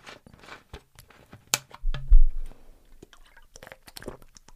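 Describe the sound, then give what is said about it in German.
A quick sip of a drink: a faint wet slurp and a swallow pass briefly in the middle, with small clicks and lip noises around it at low level. “Jetzt muss ich mal ganz kurz einen Schluck trinken.”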